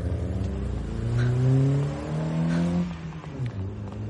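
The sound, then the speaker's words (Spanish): A taxi engine revs hard as the car accelerates during a chase, its loud mid-range note climbing steadily in pitch before easing off near the end. “El taxi circula por ella. Acelera.”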